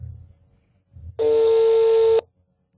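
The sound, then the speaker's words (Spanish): A telephone tone sounds while dialing a call: one steady, loud electronic beep lasting about a second, after a faint low rumble. “Estamos llamando a Rulo de nuevo.”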